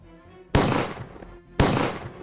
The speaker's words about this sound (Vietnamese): Hai tiếng súng lần lượt vang lên.